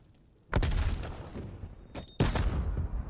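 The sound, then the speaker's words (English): Grenade explosions in a video game: a few sharp, booming blasts, each trailing off into a decaying rumble, with a faint steady electronic tone above them. “Oh, that's a good grenade.”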